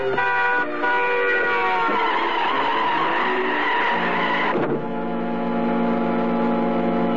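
A taxicab's horn blares and its tires squeal as it strikes a woman crossing 49th Street against the light. A loud, sustained wail with sliding pitch breaks off abruptly near the end into a steadier tone.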